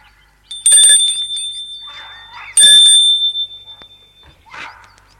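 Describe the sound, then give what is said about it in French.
A doorbell rings at the French door of an old, ivy-covered three-storey mansion. Two bright, piercing rings with a sustained metallic tone, the second as loud as the first, followed by soft scuffing sounds. “Il monte le perron et sonne à la porte-fenêtre.”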